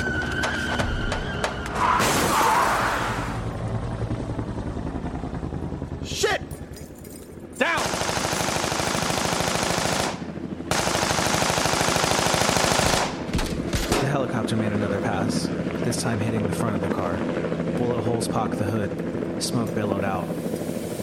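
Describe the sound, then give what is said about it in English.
Machine-gun fire strikes a car from the side, bullets tearing through its door and roof: loud, dense bursts of rapid gunfire over steady helicopter rotor noise, with brief breaks between bursts and voices at times. “we were hit from the side. Bullets ripped through the door and the roof of the car, somehow missing us.”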